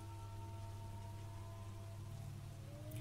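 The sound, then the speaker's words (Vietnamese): Heavy rain pouring down without letup, a faint, steady wash of drops that holds a constant level from start to finish. “Hơn một giờ đồng hồ trôi qua, cơn mưa không có dấu hiệu tạnh, dường như càng ngày càng nặng hạt.”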